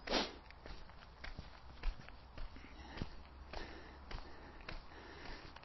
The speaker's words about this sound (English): Back on my toes. Everyone's favourite, this one. Everyone loves the toe walk. And heels.